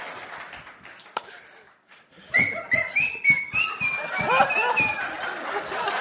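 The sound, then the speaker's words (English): A sharp whistle from a comedy show audience rings out in wavering high tones amid crowd noise and laughter, following a quieter stretch at the start. “That whistle was to bring everything right back to where it was.”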